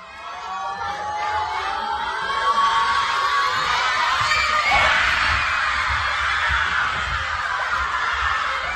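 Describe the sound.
Children cheering and shouting in a school at the kickoff of Austria's first World Cup match in 28 years, a loud crowd roar that builds to a peak midway and stays high to the end.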